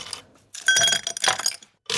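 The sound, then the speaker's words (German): Ice cubes dropped into a glass make bright clinking and clattering in a few bursts. A longer burst of rattling sits in the middle, between short pauses, and no one speaks. “Via Radio, mit ein paar Eiswürfeln, die da in ein Glas reingetan werden.”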